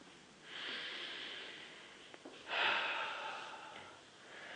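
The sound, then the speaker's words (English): Slow, deep breathing in and out during a guided relaxation exercise: two long, airy breaths, each swelling and fading, and a third beginning at the end, soft and steady with no talking. “And take full, refreshing breaths of air in and out. And continue to breathe deeply.”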